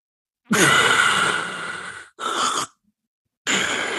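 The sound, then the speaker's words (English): A voice imitates the choking, obstructed breathing of sleep apnea: a long, harsh, rasping breath and a short second gasp. After a silent pause, another rasping breath starts. “Sleep apnea is when the tongue falls back into the throat and you go,”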